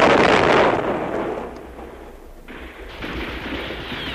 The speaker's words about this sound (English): Hey, look out! Hey, it's a grenade! Hey, get back!